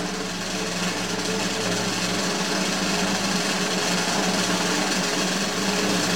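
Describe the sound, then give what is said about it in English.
A drum roll rattles on as one rapid, unbroken, steady roll, loud and even for the whole stretch with no pause or talk. “So, a drum roll.”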